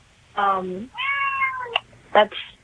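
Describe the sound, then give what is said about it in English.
A cat meowing a few times, with drawn-out, tonal, wavering meows separated by short pauses, one brief chirp-like sound among them, loud against a quiet background. “was that a cat or a little brother and sister, or a brother or sister I just heard? It was a cat. Yes, that was a cat.”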